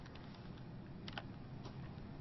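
A computer mouse clicks faintly a few times: brief, light ticks over a low, steady background hiss, with no talking.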